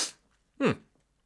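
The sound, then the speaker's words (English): A single sneeze the person tries to suppress comes as a short, sharp, partly stifled burst after a moment of quiet. “As I've got a sneeze coming on here, try to suppress that.”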